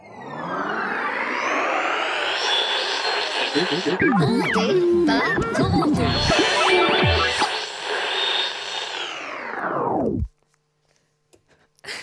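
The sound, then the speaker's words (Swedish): Radio show jingle: loud, dense music with voices runs for about ten seconds, then cuts off abruptly into near silence. “Det där är ju också en fantastisk jingel. Jättefin.”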